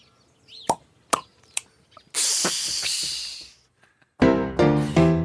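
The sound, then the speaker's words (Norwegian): A squeeze tube of caviar and then a bottle of apple sauce being opened: a few sharp clicks of the caps, then a longer hissing rush, followed by squeaky tonal sounds. “Åpne opp først din egen tube, og så flasken.”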